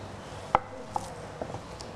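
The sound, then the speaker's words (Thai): A knife finely slicing rolled kaffir lime leaves and culantro on a board gives a few light, sparse taps, quiet and alone. “เราจะมีใบมะกรูดซอยแล้วก็จะมีผักชีฝรั่งนะคะซอย”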